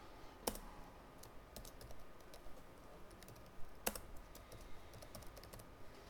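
Quiet typing of a copyright notice on a computer keyboard: faint, irregular key clicks scattered across several seconds, with two sharper taps standing out.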